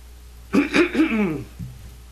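A person clears the throat and coughs in a dusty booth, a few harsh rasping bursts ending in a short low grunt.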